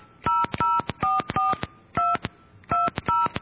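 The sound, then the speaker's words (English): Touch-tone beeps sound as an 800 number is dialed on a telephone keypad. The short dual-tone bursts come in quick, uneven groups, with brief gaps between the clusters. “Okay, please enter the telephone number you wish to dial now. All right, let's try the 800 number.”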